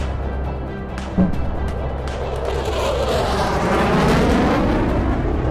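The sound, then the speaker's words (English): Fighter jets attack a ship with explosions: a continuous loud, rumbling roar with a sharp blast early on, swelling louder toward the end. “Fighter jets came soaring from the east. They unleashed a fury at the ship.”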